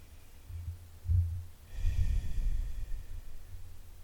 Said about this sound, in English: whenever you're ready, take a nice deep breath.